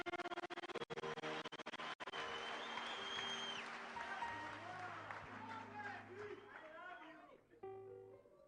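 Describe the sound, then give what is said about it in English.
Congregation clapping hands during testimony time at a Sunday church service: a dense, steady wash of claps that carries through the whole stretch, mixed with voices and sustained musical tones. “Clap your hands for Jesus, somebody.”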